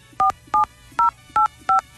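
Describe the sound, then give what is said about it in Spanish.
Telephone keypad tones entering a password during a call: five short, even, steady electronic beeps, evenly spaced and clearly separated, with no talk over them. “Por favor, ingrese su contraseña seguida de la tecla de número.”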